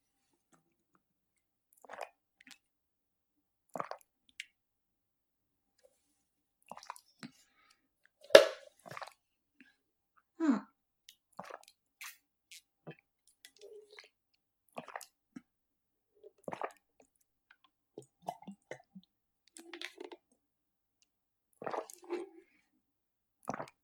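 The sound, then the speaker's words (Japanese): Drinking water from a bottle: many faint, soft, wet gulps and swallows, spaced irregularly with quiet gaps between them and no talking. “まずは水をまた一本飲みたいと思います。いただきます。”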